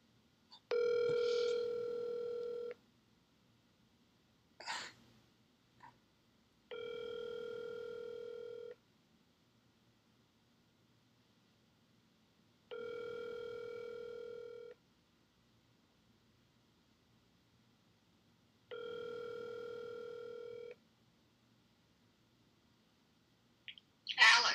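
A faint telephone line tone after a call is hung up: four steady electronic tone bursts evenly spaced several seconds apart, with a few short clicks and bursts of noise in between.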